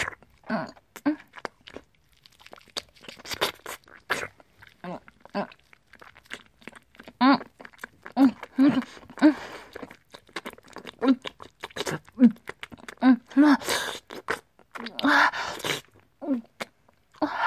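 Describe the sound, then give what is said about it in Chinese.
Chewing and biting into a meat bun, heard as many soft, irregular bites, smacks and squishy mouth sounds coming in uneven bursts, fairly faint overall. “哇，儿子的肉包，味道好好啊。”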